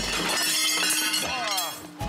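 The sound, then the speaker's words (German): A sandstone block from the Billerbeck quarries is broken apart with a loud, gritty crunching burst that fills most of the moment. A voice is audible near the end. “Ist er kaputt? Kaputt gemacht, den Stein.”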